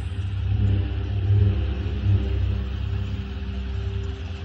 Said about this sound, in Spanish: Una lancha de la Guardia Civil patrulla por la costa de noche bajo una intensa lluvia.